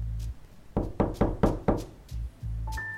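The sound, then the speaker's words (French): A door is knocked five times in quick, evenly spaced, firm, hollow raps, alone and without voices. “Arrivé chez Ringard, il toque.”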